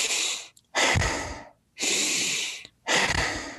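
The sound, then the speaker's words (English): Exaggerated breathing in through the nose and out through the mouth: four long, loud, airy breaths with short silent gaps between them, forming two slow in-and-out cycles. “take 5 exaggerated breaths in through the nose and out the mouth”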